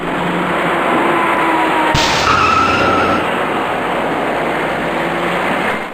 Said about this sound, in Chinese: 这里是下午4点多的菜市口路口，原本挺有规矩的行驶秩序即将被一起事故所打破。